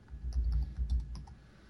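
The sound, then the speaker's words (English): Typing a search on a Kindle: a few quick, faint key clicks in an uneven burst over a low background rumble, with no voices. “I've got the Kindle version here, so I thought I'd type Christian, and I got like 20 things. Considering here, let me type the word "and."”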